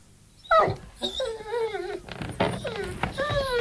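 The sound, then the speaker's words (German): Whining and whimpering from a large dog, several drawn-out high-pitched whines with wavering, bending pitch, separated by short breaks and heard alone without talk. “Oh, das ist ja ein riesiges Hundevieh.”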